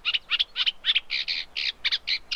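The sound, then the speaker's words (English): Reed warbler song from an unmated male in England: a steady, fast series of many high, scratchy chattering phrases with a regular beat, clear and alone. “that is the reed warbler, the song of the unmated male with cows in the distance.”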